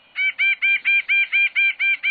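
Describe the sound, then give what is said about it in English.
A nuthatch gives its insistent call: nine evenly spaced, nasal, mid-to-high notes repeat in a steady rhythm, each note clear and fairly loud against a quiet background. “The nuthatch's insistent call matches its aggressiveness.”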